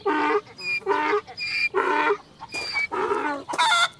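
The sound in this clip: Ducks on a farm quacking in a run of about five harsh, nasal calls over a few seconds, loud and close together, with no talk.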